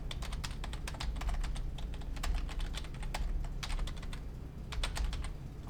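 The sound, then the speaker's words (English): Rapid typing on a computer keyboard while entering someone's contact details, with many crisp keystrokes tapped in quick, uneven bursts and no voices. “Oh, whoops. I typed his email in for his name.”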